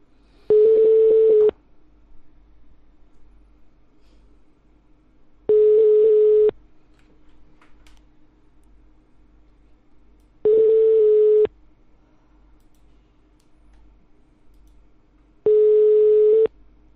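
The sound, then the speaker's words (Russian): Ringing tones of a telephone number being dialed: four identical, evenly spaced beeps, each about a second long, separated by quiet pauses over a faint steady hum. “Так, идет набор.”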